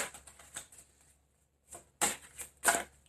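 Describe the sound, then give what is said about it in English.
Tarot cards drawn from a deck give a few short, papery swishes and snaps, with a quiet pause in the middle and sharper slides toward the end. “I need another card. Something's telling me to take this card and this card.”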